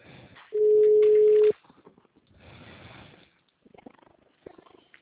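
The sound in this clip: A single steady ringback tone on an outgoing telephone call lasts about one second, followed by faint, scattered background noise.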